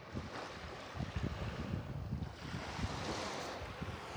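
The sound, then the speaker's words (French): Sea waves wash onto the shore in a soft, continuous surf rush, with gusts of wind buffeting the microphone in low thumps. “Ça y est, tu la vois ? La mer, on y est.”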